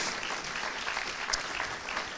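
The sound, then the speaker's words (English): Audience applause at a church Christmas carol service: a steady, even wash of clapping hands that stays unbroken and fairly soft throughout, with no voices rising above it. “Yeah, round of applause.”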